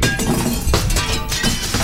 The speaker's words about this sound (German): Oje, jetzt hat er voll ins Fenster getroffen.